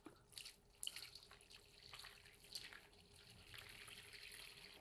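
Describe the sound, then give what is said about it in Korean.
Liquid pours and splashes steadily as boiled pagoda tree flowers, about 300 g simmered for half an hour, are strained through cheesecloth, a continuous trickling wash with a few brighter splashes near the start. “자, 끓인 괴화를 면보를 깔고 걸러 주세요.”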